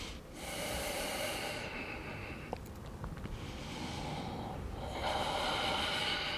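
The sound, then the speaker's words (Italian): Slow breaths in and out during a lower-back exercise with a ball. Three breathy hissing cycles rise and fall in turn. They are soft and clear, with no talk. “Facciamo altri tre, inspiro, espiro.”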